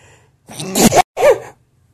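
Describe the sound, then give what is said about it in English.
One loud human sneeze from someone with allergies: a sharp, breathy burst followed by a short second gust after a brief break, heard alone with no talk. “That sneeze sounded good.”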